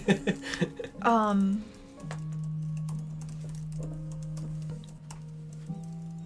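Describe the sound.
Someone types on a computer keyboard, making rapid, irregular clicking that runs alongside people talking.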